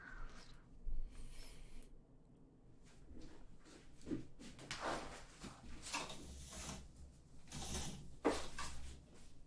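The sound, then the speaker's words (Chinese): Curtains being drawn and a door being locked in an office: a quiet series of sliding, rustling and creaking handling noises with several sharp mechanical clicks, no talk. “我去把窗帘拉上，把门锁上。”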